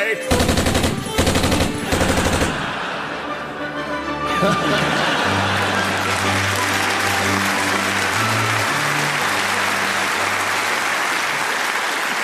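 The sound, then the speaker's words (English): Rapid bursts of machine gun fire dominate the first couple of seconds. The gun is carried by a costumed figure at a comedy event. Steady music with deep bass notes follows. “He's carrying a machine gun. Oh, no.”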